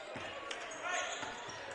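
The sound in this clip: A basketball is dribbled down the lane during a basketball game, making a few dull, thudding bounces over steady background noise.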